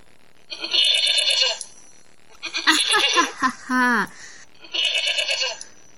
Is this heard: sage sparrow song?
no